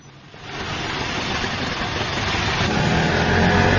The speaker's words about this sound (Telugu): అదేమిటినైనా, auto ఆపుతున్నావేమిటి?